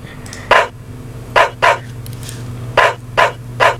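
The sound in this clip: A dog barks six sharp times in irregular bursts, some spaced apart and some close together, over a low steady hum.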